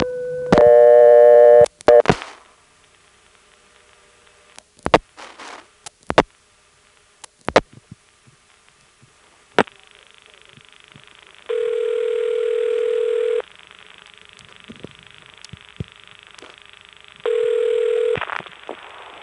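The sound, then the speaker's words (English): Telephone dialing of a long-distance 1 plus three-digit code to the Greenville disconnected-number recording: a bright tone burst opens, followed by a few sharp clicks, then a steady hiss broken by two loud held tones. “here's dialing 1, plus a 3-digit code that goes to the Greenville recording, and you'll hear it's the same tape as the two recordings here.”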